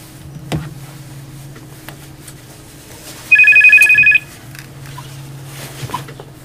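An incoming call rings a telephone in a radio studio: a single loud electronic trill lasting about a second, standing alone over a low steady hum.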